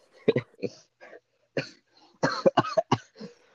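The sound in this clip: Coughing set off by laughter, a few rough, uneven bursts with short breathy sounds between them.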